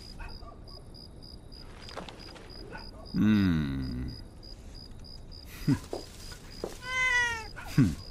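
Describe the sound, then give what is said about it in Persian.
A cat meows beside garbage in an alley. It gives a few meows: one long, wavering call, then shorter ones, over a steady, high, insect-like chirping. “کنار زباله های گربه میبینه.”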